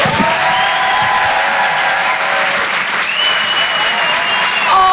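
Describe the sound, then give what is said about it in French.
Loud, sustained applause with some cheering from a theatre audience at a stand-up comedy show in Paris, as a comedian is welcomed on stage. The dense clapping holds steady throughout. “Faites du bruit s'il vous plaît pour le phénomène Paul Taylor.”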